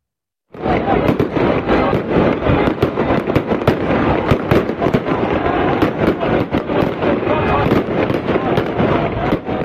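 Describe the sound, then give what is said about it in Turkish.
Fireworks and firecrackers set off in the street by football fans celebrating a win in Diyarbakır and Şırnak, where the celebrations turned violent. A dense, loud, unbroken barrage of cracks and bangs starts suddenly and continues throughout. “Havai fişekler atıp dükkanların camlarını kırdılar.”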